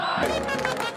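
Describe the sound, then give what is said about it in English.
A packed football crowd roars in the stands at a match in Syria. Many voices cheer and shout together in a single sustained, loud roar lasting about a second. “The roar of this crowd isn't just about the game. It's the sound of a new generation finally being allowed to play by its own rules.”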